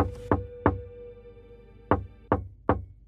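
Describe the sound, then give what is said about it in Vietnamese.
Knocking from inside a sealed jade coffin: five sharp knocks, two in quick succession, a pause, then three more, over a faint steady hum. “bên trong cỗ quan tài ngọc hoàn toàn kín mít kia đột nhiên vang ra tiếng gõ.”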